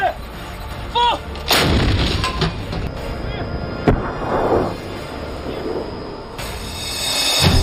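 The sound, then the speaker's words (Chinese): Heavy artillery fire: a few loud, sharp booms break through a continuous heavy rumble, with one crisp blast standing out partway through. “猛烈的火力打击。”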